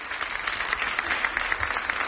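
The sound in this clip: Steady applause during the Pope's visit to Brians 1, as an inmate addresses him and he embraces her: many hands clapping in a dense, even patter at moderate volume.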